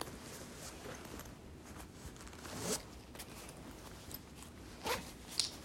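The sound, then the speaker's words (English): A zipper on an insulin bag is pulled open in a few quick zipping strokes, with soft rustling of the bag between them. “So what I'll do is I'll get into bed, and then I'll open up my insulin bag”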